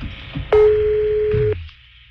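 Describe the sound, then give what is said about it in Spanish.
Telephone ringing: a single steady electronic tone sounds for about a second after a short quiet lead-in, then cuts off, leaving faint background noise and no talking. “Está sonando el teléfono ya de la señora que tiene gatos, perros, conejos.”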